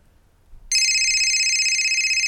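A telephone rings with a loud, high electronic tone. It starts suddenly after a brief quiet and holds steady and warbling to the end.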